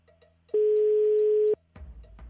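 Ringback tone of an unanswered telephone call: a single steady, mid-pitched electronic beep lasting about a second, then quiet line noise and a soft low rustle.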